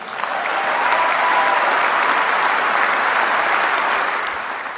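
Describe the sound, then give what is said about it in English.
Sustained applause from the audience at the Labour Party conference during a Jeremy Corbyn speech. It is loud and steady for nearly five seconds, with dense clapping that eases slightly at the end. “obviously what we can hear there is that the audience at Labour Party conference are quite pleased to hear what Jeremy Corbyn's saying”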